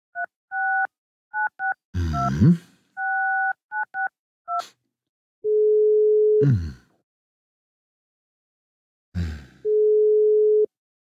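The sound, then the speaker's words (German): Ringing tone of an outgoing telephone call: a quick run of many keypad dialing beeps, then two long, steady mid-pitched ringback tones separated by a pause, with brief clattering bursts between them. “Ja, den rufe ich an. Genau. Der wird rangehen.”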